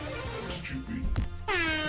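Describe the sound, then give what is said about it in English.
A sound-effect air horn blares near the end as a loud, bright, sustained blast with rich harmonics, after a short stretch of voices. “That's a cocaine air horn. Cocaine horn.”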